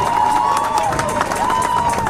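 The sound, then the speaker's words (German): A crowd at a political rally about a feminist general strike in Spain applauds and cheers. The clapping is dense and loud, and a sustained, shrill high tone runs through it. “Das hat Applaus verdient.”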